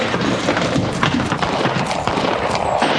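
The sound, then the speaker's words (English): A horse gallops hard with a rider bent low in the saddle. Rapid, uneven hoofbeat thuds run through a noisy, rushing background. “He's gonna run somebody down riding that way. Well, he's trying to ride like an Indian. Look how low he's bent.”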